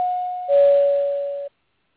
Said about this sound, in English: Once we get to the two-minute mark, you're going to hear the sound.